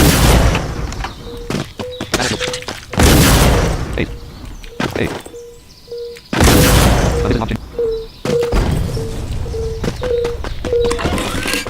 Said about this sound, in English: Rocket launcher.